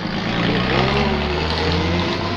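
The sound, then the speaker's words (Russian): A truck pulls up to a stop at a roadside. A loud, low engine rumble with a steady hum fills the whole brief moment. “Рядом с ней тормозит грузовик.”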